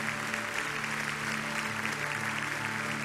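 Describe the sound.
Church audience applauding, a dense, continuous wash of clapping that holds at an even level throughout.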